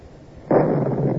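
A cannon fires a shell after its fuse is lit with a linstock: one sudden loud blast, followed by a broad, rough roar that lingers to the end.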